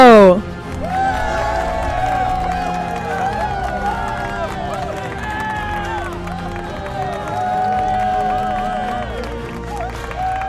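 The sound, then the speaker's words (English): An audience applauds and cheers to introduce the host of a show about law, sports and entertainment. Loud, steady clapping and whooping voices run for about ten seconds without a break. “Ladies and gentlemen, put your hands together for Josh Scarpello!”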